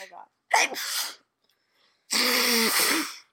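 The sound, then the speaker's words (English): A person sneezes sharply after a short breath, then after a pause gives a longer, loud, buzzing blow of the nose lasting about a second. “Pause for a second while I blow my nose because I'm about to sneeze.”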